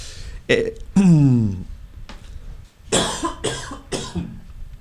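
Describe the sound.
A person at a microphone during a live talk show coughs after swallowing the wrong way. A few harsh bursts come first, including a strained, throaty vocal sound, then a short pause and three more quick coughs.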